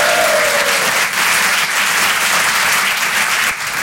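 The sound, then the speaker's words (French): Dense, sustained applause from an audience at a live stage show as the presenter is welcomed. The clapping stays loud and steady from start to finish without a break. “Un maximum de bruit pour le présentateur Guillaume, s'il vous plaît, quand même. Du bruit.”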